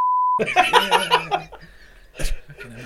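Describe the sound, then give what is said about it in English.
A censor bleep tone: one loud, steady, mid-pitched beep held for under half a second at the start, then laughter and chatter from several people. “I want to bleep it. Yeah. No, you got to beep out.”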